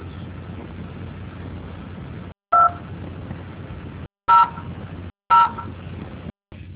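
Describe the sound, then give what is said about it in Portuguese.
Telephone keypad tones are entered as a four-digit password on a phone line. Three short, clear beeps are audible, spaced about a second apart, over a steady hiss with brief dropouts in between. “Digite a sua senha com 4 dígitos.”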